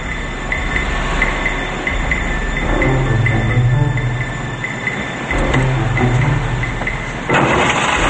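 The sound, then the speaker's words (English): A car engine rumbles steadily as the car drives slowly into a parking garage, a low sustained drone with a faint hum and small swells in loudness. “Sneller gets out of the car and the balding man pulls into the garage. He drives through it slowly while looking at the parked cars.”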